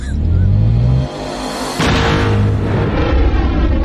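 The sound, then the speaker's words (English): A Star Wars seismic charge goes off. A low droning hum drops into a brief hush, then a heavy booming burst breaks out and gives way to a sustained deep rumble. “Fennec, once again, takes care of business for him, hits a switch, seismic charge. Oh, the coolest line. Fire in the hole.”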